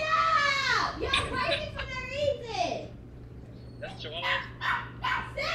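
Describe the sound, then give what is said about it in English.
A dog barks and yelps in a few loud, tonal bursts, with a brief lull in the middle before more barking. Voices are heard alongside the barking. “Get that dog, bro. Get the dog.”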